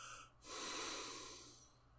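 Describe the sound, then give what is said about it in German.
A quiet nasal exhale through the right nostril during alternate nostril breathing in yoga practice: one soft, steady breath that swells, holds briefly, then tapers away over about a second. “von der rechten Hand den kleinen Finger und den Ringfinger zum linken Nasenloch, rechts ausatmen.”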